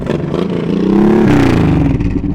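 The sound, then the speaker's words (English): Motorcycle engines rev loudly at the Wasteland City 2023 motorcycle event. The mid-pitched engine roar climbs briefly in pitch before levelling off and staying steady and loud. “Another thing that just is nonstop once the event starts is engines all the time. All the time.”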